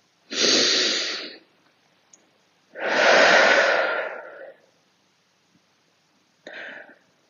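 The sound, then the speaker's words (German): Deep breaths during a guided meditation: three loud, slow, airy breaths, each a long rush of air with silence between, the second the longest, with no talk. “Nimm nochmal einen tiefen Atemzug.”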